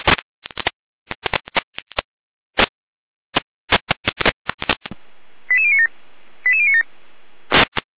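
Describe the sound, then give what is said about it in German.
Alerting tones from a German emergency dispatch centre calling out a care unit: a rapid irregular string of short dialing-style beeps, then a steady tone with two brief stepped tone sequences, ending with one more short beep. “Leitstelle Gera mit Alarmierung.”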